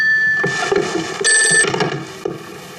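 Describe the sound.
A telephone rings with a steady, bright, continuous electronic ring that holds loud and even throughout, with no voices over it.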